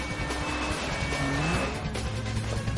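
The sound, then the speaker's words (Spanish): An SUV engine rumbles as the vehicle is driven away, a continuous, moderately loud drone with road noise and no pauses. “Saca a la conductora del vehículo y sube. Deja la radio del policía en el asiento del copiloto.”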